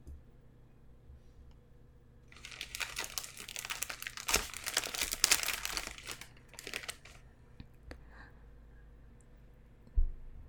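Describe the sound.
A package is unwrapped with dense, crackly crinkling of wrapping material for several seconds, easing off into scattered rustles and ending with a single soft thump.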